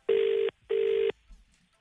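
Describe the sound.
Two long, steady electronic telephone beeps at the same pitch, evenly spaced, as a call is placed, then near silence.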